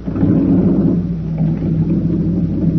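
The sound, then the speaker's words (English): A boat's number two motor turned over and running, a loud, steady low rumble with a droning hum that dips slightly in level about a second in, then carries on evenly. “listen to this number two motor. All right. Turn her over”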